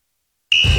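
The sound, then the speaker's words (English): An alarm clock goes off at 6:30 a.m. with a sudden, loud, high electronic beep that starts abruptly after half a second of silence and holds steady to the end. “6:30 a.m. Your alarm goes off.”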